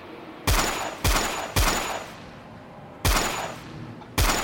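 Gunfire in a facility as soldiers shoot at mice pouring from a pipe: five loud, separate shots at irregular intervals, each with a sharp crack and a long decaying tail, with no talk.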